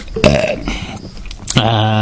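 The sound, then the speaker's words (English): A loud human burp rumbles out, rough and low-pitched, with talking heard alongside it. “I have to belch”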